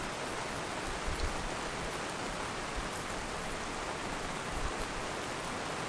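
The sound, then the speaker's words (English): Heavy subtropical rain falls in Brisbane, Queensland: a dense, steady, even hiss of big drops that continues without pause, with a few soft low thumps and no voices. “I've woken to the delightful sounds of big, fat Queensland rain.”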